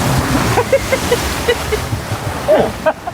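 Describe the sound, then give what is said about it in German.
Water rushes and splashes on a fairground water ride, a loud, continuous churning wash with brief voices breaking through now and then. “Alter, mir wird der Arsch nass. Warum das denn? Das ist doch doof. Okay, oh, jetzt geht's runter, oder was?”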